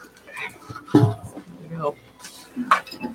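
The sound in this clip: Dice clattering across a tabletop during a tabletop role-playing game, a few sharp hard clicks and rattles mixed in with people talking.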